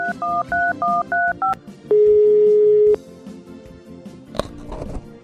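Telephone keypad tones open a phone line for a radio call-in: about six quick, evenly spaced dual-tone beeps, then a single steady tone lasting about a second, followed by low line noise.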